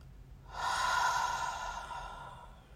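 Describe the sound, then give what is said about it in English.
A breath drawn in through the nose, held, then released through the mouth during a guided relaxation exercise. It sounds like one long, airy breath, soft and steady, with no talking. “So go ahead and breathe in through your nose and just hold it for a second. And then release through your mouth.”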